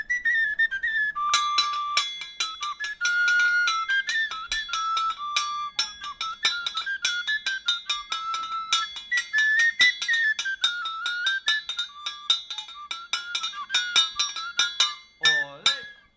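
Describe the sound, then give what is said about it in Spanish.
Short paso doble played on farm tools: a bright, high, whistle-like melody over steady metallic clinks and taps keeping a brisk, even beat throughout. “Pues hacemos un trocito de un paso doble de riego que hemos titulado. Vamos a hacer una versión cortita con los aperos de labranza.”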